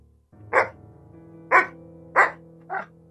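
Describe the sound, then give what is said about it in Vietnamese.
A dog barks four times, loud and separate, the two middle barks closer together and the last a little softer, over a low steady hum. “Tiếng chó sủa vang lên.”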